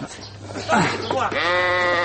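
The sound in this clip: A sheep bleats while its legs are being tied with rope before slaughter: a voice speaks first, then the animal lets out one long, wavering, fairly loud bleat that carries to the end.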